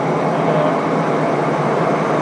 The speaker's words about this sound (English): It's a Merlees Blackstone engine, about 500 horsepower each. We've got two of those, so one engine works each fourth unit.